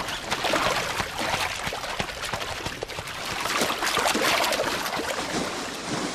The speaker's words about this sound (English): The two bulls square up in a ritual confrontation, both spinning their tails to shower each other with water and dung.